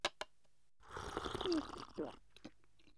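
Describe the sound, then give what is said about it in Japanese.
Hot tea being sipped, opening with two small clicks, then a drawn-out, breathy slurp of about a second and a half with a noisy hiss. A few faint clicks trail off afterward. “ああ、うまいな。やはり萩原君の入れてくれるお茶は最高だ。”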